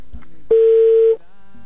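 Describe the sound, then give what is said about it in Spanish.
A telephone line tone sounds as a call rings through on the line: one steady, mid-pitched tone lasting about two-thirds of a second, standing alone over faint line hiss. “ya entró otra vez la llamada, ya está sonando”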